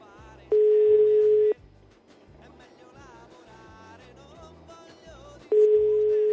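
Telephone line tone on an unanswered call: two steady one-second beeps at an even pitch, spaced several seconds apart, over a quiet rhythmic background.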